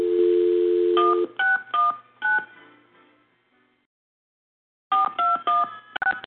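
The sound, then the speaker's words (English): A telephone number is dialed: a steady dial tone, then a few keypad beeps, a silent pause, and a quicker run of several more beeps. “All right, let's dial her up.”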